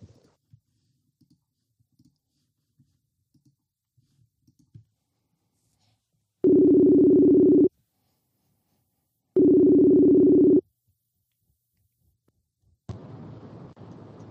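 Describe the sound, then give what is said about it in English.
Two steady ringing tones of an outgoing phone call being placed, each lasting about a second with a gap of about two seconds between them. Faint clicks come before them and a soft hiss follows. “I'm going to hang up this call, and I'm not going to stop recording, and I'm going to dial Tom.”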